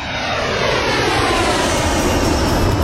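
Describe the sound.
Airplane engine drone used as a sound effect, a loud, continuous roar with a steady low rumble and hiss that holds constant the whole time, with no voices.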